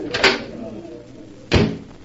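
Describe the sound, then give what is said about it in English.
A door swings open onto a terrace, giving two short, fairly loud knocks or clunks about a second apart with a quieter stretch of movement between them. “Here, this door opens onto it.”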